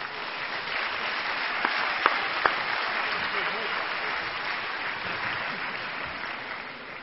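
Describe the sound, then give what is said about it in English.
An audience at a university convocation ceremony applauds a quintet, giving steady, dense clapping for about seven seconds with a few sharper claps standing out near the middle. “Please give a nice hand to Brian Sand and his quintet.”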